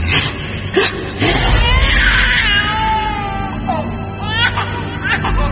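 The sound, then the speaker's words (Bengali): A baby cries loudly in a high, wavering wail that bends up and down, sustained over a steady low rumbling background. “সজোরে কেঁদে ওঠে বাচ্চাটা”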